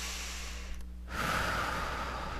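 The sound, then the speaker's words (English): A deep breath: after a brief hush, a steady, airy rush of breath begins midway and continues to the end, over a faint low hum. “Okay, nice deep breath again.”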